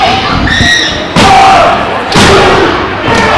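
Heavy thuds of a wrestler being body-slammed onto the ring mat during a pro wrestling match, sharp broad impacts cutting through a steady wash of crowd noise.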